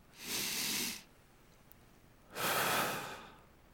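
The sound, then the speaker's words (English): A deep breath drawn in and let out, heard as two long, airy rushes of breath separated by a short quiet pause, the slow inhale first and the fuller exhale after it. “Everybody just do this with me. The deepest breath you can take.”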